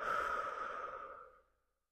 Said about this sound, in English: Inhale through the nose and exhale out of the mouth.